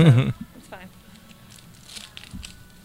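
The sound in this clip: Rainbow gift wrapping paper is torn open on a Christmas present, beginning with a loud ripping crinkle, followed by softer scattered rustles and crackles of paper.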